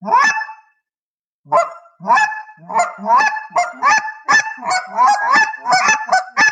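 Double clucks blown on a turkey call: one opening note, a pause, then a quick, uneven run of many short, sharp, nasal calls with a bright, ringing tone, loud and alone.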